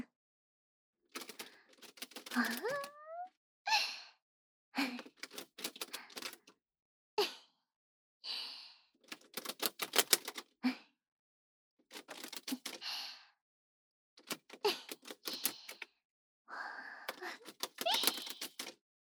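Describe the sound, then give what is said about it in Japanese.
Playing cards are sprung from one hand to the other, producing many quick bursts of rapid, crisp fluttering clicks, each lasting about a second, separated by short silences. “次はカードが華麗に飛ぶスプリング。”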